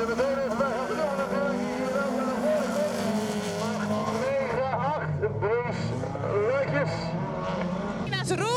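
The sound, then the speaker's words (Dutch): Cars at a motor event with about 4000 visitors give a steady engine roar and drone that runs throughout, while people talk over it. “U hoort tussen het motorgeronk door”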